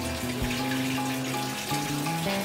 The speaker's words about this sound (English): Okay, at this point, what I've done is I've cleaned the product and I'm taking out of the cleaning bath side.